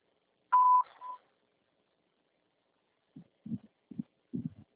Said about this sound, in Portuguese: Sua chamada está sendo encaminhada para a caixa de mensagem. Deixará sujeita a cobrança após o sinal. Alô, Pedro? Após o sinal, grave sua mensagem.